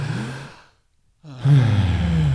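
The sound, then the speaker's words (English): A deep, audible breath during a quick reset, airy and partly voiced like a sigh. Two loud breathing sounds are separated by a short stretch of near silence, and the second is stronger and fuller. “Maybe let's take a quick breath. 1, 2, 3, in.”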